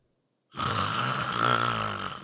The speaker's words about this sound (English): how about that? Does snoring set you off?